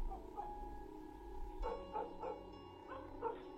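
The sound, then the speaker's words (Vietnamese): A yellow dog barks in a few soft, short barks spread through the second half, set against a steady background drone; no clear growl stands out. “Con chó vàng bỗng nhiên gầm gừ sủa lên.”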